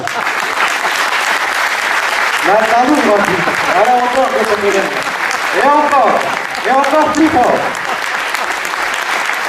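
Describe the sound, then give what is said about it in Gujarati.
Khoja-style applause from an event audience: steady, dense clapping that continues throughout at a loud level, with voices rising and falling over it in several swelling bursts. “તો હવે ખોજાની તાળી મારો”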